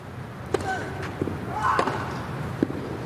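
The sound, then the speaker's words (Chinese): Sharp tennis ball impacts from Zverev's backhand down-the-line return ace of serve, a few crisp hits spread across the moment over steady background noise and faint talk. “哇，这球反拍接发球，兹维列夫接进来了，反拍直线的一记 return ace。”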